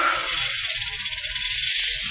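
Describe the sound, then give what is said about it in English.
Steady, breathy hissing of a deadly snake fills the room, a continuous sibilant rush that holds at an even level throughout, with a faint low rumble underneath. “Not steam. Someone just put deadly snake in the room.”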